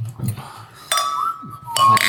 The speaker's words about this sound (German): Und während wir mal zuprosten.